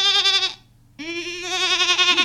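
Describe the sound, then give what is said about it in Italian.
A goat bleats from the doorway of a shack in a camp near Rome: two loud, wavering, nasal cries, a short one and then a longer one after a brief pause. “No, guarda, ci sta pure una capra che fa capolino dall'uscio di una baracca.”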